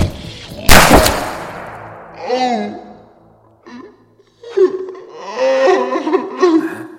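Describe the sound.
One sharp, loud gunshot sound effect in an audio drama, followed by voices and laughter.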